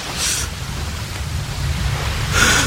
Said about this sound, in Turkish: Yağmur, fırtına, gök gürültüsü hepsi var. Deniz adeta kudurmuş.